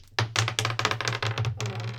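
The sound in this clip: Dice rolled during a tabletop role-playing game make many quick, sharp rattling clicks in a fast burst over a faint low hum.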